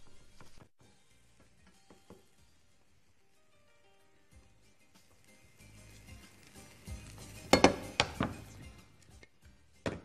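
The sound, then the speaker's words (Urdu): Stirring of an egg and spinach mixture in a pan: quiet, scattered scrapes and light taps, then a cluster of louder clattering knocks near the end. “اس طرح سے اس میں انڈوں کا آمیزہ ملانے کے بعد آہستہ آہستہ چلائیں گے تاکہ پالک ہر جگہ پہنچ جائے۔”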